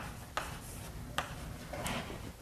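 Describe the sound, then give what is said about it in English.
Faint writing as equations are worked out, a few soft scratchy strokes and light taps spread across a quiet background with no talk. “I'm going to write that out for you.”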